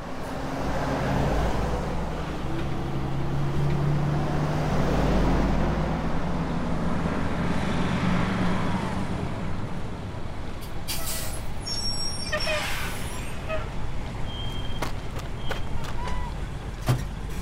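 Heavy trucks of a convoy pulling up: a deep, loud engine rumble fills the first half, then gives way to sharp hissing bursts like air brakes and high squeals.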